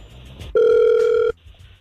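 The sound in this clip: Telephone ringback tone as a radio show calls a listener: one steady, loud electronic buzz lasting under a second, with faint background sound before and after it.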